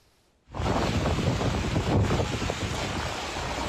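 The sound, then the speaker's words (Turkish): Storm wind roars in a sudden autumn storm as a loud, broad rush with gusty buffeting. It cuts in abruptly after a near-silent half second and stays strong throughout. “Antalya'da fırtına, Kastamonu'da hortum, Sinop'ta şiddetli sağanak etkili oldu.”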